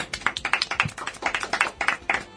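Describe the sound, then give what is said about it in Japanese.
Applause from a small group: many quick, irregular hand claps, moderately loud and with no voices. “はい、 素晴らしい拍手。”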